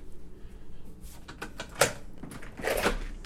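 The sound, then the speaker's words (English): A screen door and an inner metal door being opened, giving a few scattered clicks and knocks, one sharper knock midway, then a longer rattling scrape near the end. “I have two doors, a screen door and an inner metal door. Open them both.”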